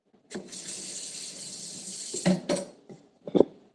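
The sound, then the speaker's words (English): Water runs into a pot already holding mirin and ginger for a hot pot broth. A steady splashing stream lasts about two seconds, followed by a few sharp clanks of cookware. “Now I'm adding some water. So I have mirin, ginger, and water.”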